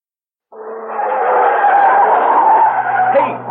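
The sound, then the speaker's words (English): Car tires squeal loudly as a car takes a curve fast, a shrill sustained skid that starts abruptly and holds for about three seconds. “Slow down on these curves. You took that one on two wheels.”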